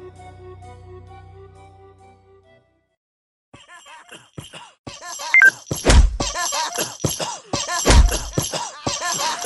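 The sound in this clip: Bat strikes in a video game where six clowns are beaten with a bat. After a quiet stretch of soft tones, busy game effects begin and two heavy thuds stand out clearly.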